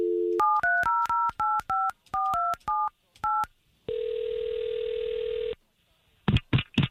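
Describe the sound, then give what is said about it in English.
Telephone number being dialed for a call to a listener: a quick series of distinct keypad touch-tone beeps after a short opening tone, followed by a long, steady ringing tone and a few brief noises at the end. “we'll take this number that you gave us, Ed, and we'll call him right now”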